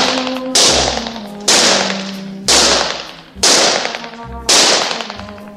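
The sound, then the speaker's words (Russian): Five sharp gunshots fired at targets shaped like German soldiers in a shooting gallery. Each is a loud crack with a short decaying tail, fired at a steady pace about a second apart over a low background hum. “Тир. Майор что-то говорит Жене на ухо. Женя стреляет по мишеням. Мишени в виде немецких солдат.”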